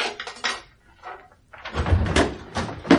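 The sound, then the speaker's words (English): A screwdriver is put away in a cupboard, with clattering knocks and rattles of objects and cupboard handling that grow into a louder, busier burst of clunks in the second half. “Put the screwdriver in the cupboard.”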